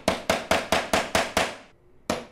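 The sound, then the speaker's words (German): Hammer blows as a craftsman in Cuba carefully drives nails into a wooden frame: seven quick, evenly spaced strikes with a sharp metallic ring, a short pause, then one more blow. “klopft vorsichtig Nägel in einen Holzrahmen.”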